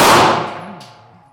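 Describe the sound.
A single gunshot from a firearm at an outdoor shooting range in Kragujevac: a sharp, loud report with a metallic clang, followed by a ringing tail that fades over about a second.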